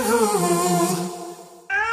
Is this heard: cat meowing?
yes